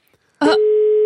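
Telephone ringing tone heard while a caller waits for someone to answer: a short burst, then a single steady, even tone that holds unbroken to the end.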